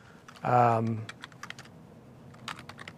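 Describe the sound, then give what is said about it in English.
Keystrokes on a computer keyboard as code is written, with scattered quick taps in uneven bursts after a short spoken phrase at the start. “So we'll do a quick bit of code here, and I'll create a function called, I'll just say bool is right hand over head equals”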